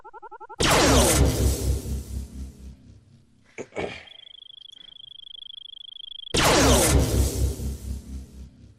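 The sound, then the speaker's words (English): Space Invaders-style arcade shooter game: two loud crackling blasts that fade away, separated by a brief burst and a steady, high electronic tone. “So it's a Space Invader. So let's, shoot some spaceships.”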